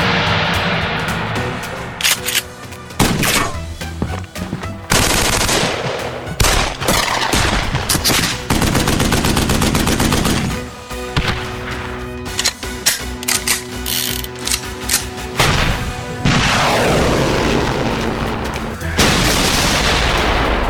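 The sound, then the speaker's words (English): Gunfire sound effects from multiple weapons fire almost nonstop in loud, dense bursts and rapid volleys, mixed with clacking mechanical sounds and broken by a few brief gaps. “I don't know when it's going to stop. It's just continuously playing multiple weapons”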